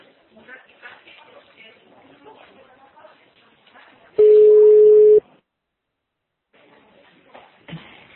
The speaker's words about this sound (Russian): Сейчас я еще раз набираю.